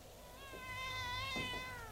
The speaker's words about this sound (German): Ach, eine junge Katze. Ja, da habe ich wenigstens Gesellschaft.